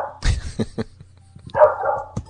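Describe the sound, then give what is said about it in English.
A female dog barks in a few sharp, separate bursts, with a drawn-out whining yip partway through, heard alone without talk. “I hope she keeps barking.”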